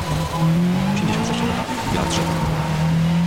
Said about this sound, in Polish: No ale słychać, że dźwięki zmieniły się. Słychać, że pada. Słychać, że jedziemy po deszczu.